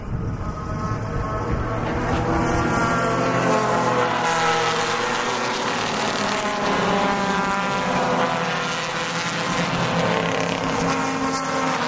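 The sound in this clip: Race cars on a racetrack build a loud, continuous, dense engine roar with layered droning tones that holds steady throughout, with no talking.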